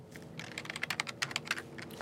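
Fingers typing on a computer keyboard, a faint, rapid run of many clicky keystrokes in an uneven rhythm, with no voices.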